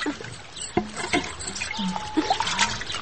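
Warm water runs in a steady trickle during winter, a low, continuous liquid patter with small splashes and drips rising and falling throughout.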